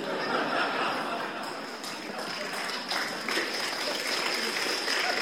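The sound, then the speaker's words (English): An audience at a live book talk event gives steady, sustained applause, with many hands clapping in a dense wash that stays even throughout. “But please do give an even bigger round of applause to Jacob Rees-Mogg,”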